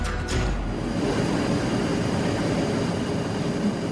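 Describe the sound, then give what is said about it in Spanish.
Airplane landing sound effect: a loud, steady jet roar with a deep rumbling low end that holds at an even level for the full four seconds, with no voices. “Vamos a aterrizar hoy en Rusia.”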